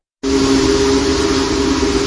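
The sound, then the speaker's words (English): A Union Pacific Big Boy steam locomotive, number 4014, sounds its whistle: a loud, sustained, steady blast with a low tonal core and a broad hiss, starting abruptly and holding without a break. “Union Pacific Big Boy Steam Locomotive 4014 draws a crowd wherever it goes, thanks to its sheer size.”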